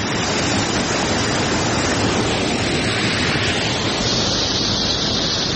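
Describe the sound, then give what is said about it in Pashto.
Water of the Mazar Baba spring, a cold, clear spring among green gardens in Uruzgan, rushes in a loud, steady, unbroken hiss that lasts throughout. “د شنو باغونو په مینځ کې د خورا یخي پاکي او سپینې اوبو په لرلو مشهوره د مزار بابا په نوم چینه”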